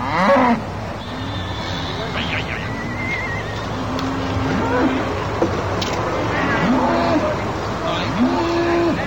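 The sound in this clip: Cattle lowing at the annual livestock roundup on Port Meadow, a common grazing meadow. Several drawn-out moos rise and fall over a steady background murmur and voices.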